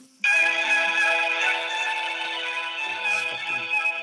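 A Verizon ringback tone plays while a phone call connects: a steady, sustained harmonic tone lasting several seconds, with slight shifts near the end.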